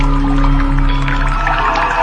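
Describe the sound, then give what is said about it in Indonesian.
Tap water running on its own as a steady, even rush with a low hum beneath it. The level stays constant throughout. “Ini air kok nyala sendiri ya?”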